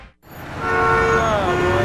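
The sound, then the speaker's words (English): Busy city street traffic in Nashville: a steady rumble with a sustained, horn-like tone that swells in after a brief quiet start and holds to the end. “Do you hear that? That's the sound of a city that's back in business.”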